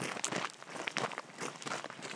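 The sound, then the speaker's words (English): Footsteps hiking up a steep wooded hillside on Oregon land trust property about 100 miles inland: faint, steady crunching and rustling steps with no talk. “Now we're about 100 miles inland, hiking up a steep wooded hillside on property owned by the Oregon Women's Land Trust.”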